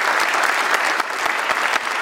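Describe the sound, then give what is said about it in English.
A festival audience gives a round of applause for its organiser: dense, continuous clapping at an even, loud level throughout. “let's just have a round of applause for Michael Moore for putting this festival.”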